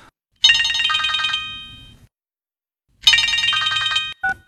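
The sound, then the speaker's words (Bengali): A telephone rings in two bright, buzzing bursts of about a second each, separated by a pause of silence and followed by a brief, short tone. “না না না, phone ধরবে না।”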